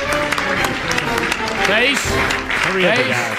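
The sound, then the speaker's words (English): Democrats applauding and cheering a bill: a dense, steady wash of clapping with crowd voices rising through it, loud and continuous throughout. “here are the Democrats cheering a bill that's going to raise taxes on the middle class and worse.”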